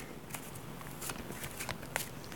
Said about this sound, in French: Je rebrasse les cartes.